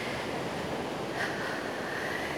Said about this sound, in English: the sound of the surf hitting the shore